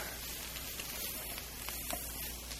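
Meat sizzles in a frying pan with a steady, even hiss that carries faint scattered crackles and pops throughout.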